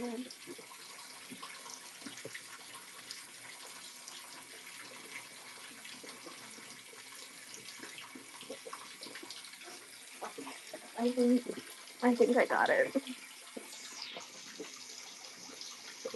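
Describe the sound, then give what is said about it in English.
Tap water running as someone rinses champagne off their face, a short splashing gush lasting a couple of seconds that rises out of an otherwise quiet background. “I gotta rinse off my face because I think I got some champagne.”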